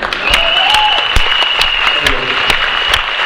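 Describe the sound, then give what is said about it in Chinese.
An audience applauds at a product presentation event with loud, dense, steady clapping that holds throughout, accompanied by a thin sustained tone. “啊，这次的掌声总算像样一点，谢谢了啊，真的谢谢”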